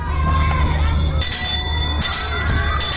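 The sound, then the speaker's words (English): A school bell rings in bright, repeated strokes at fairly regular intervals, each one cutting clearly above a steady low hum. “educational bells are ringing. They are ringing again and again.”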